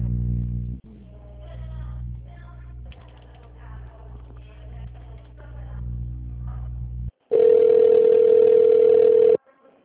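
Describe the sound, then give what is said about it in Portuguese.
A telephone line tone after a dropped call: a loud, steady, continuous tone that starts abruptly near the end and holds for about two seconds, preceded by muffled, low humming line noise. “Acho que a ligação caiu.”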